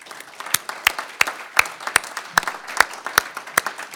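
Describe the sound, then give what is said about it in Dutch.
An audience gives a small round of applause, sparse, light handclaps patter irregularly at a moderate level throughout. “Zullen we even een klein applausje doen als anderen voor hun?”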